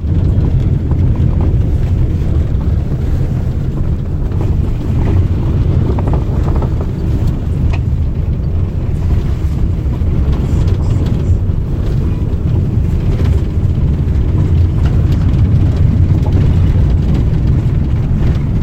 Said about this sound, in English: That's the sound of the big van driving through the bush on gravel road, round and round, up and down, over bumps and under a thick canopy of ngahere.